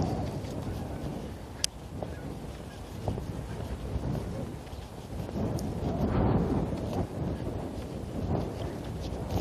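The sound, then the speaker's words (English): Strong wind blowing against a microphone fitted with a small foam windscreen, a continuous rumbling, buffeting roar that runs the whole time and swells somewhat toward the latter half. “So we'll see if the little wind foam blocks the wind.”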